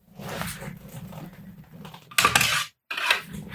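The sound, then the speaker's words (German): Trousers on trouser-clamp hangers pulled out of a wardrobe: soft rustling and light clinks, then two louder clattering bursts near the end, split by a brief silence. “Er holt seine Hose aus dem Schrank.”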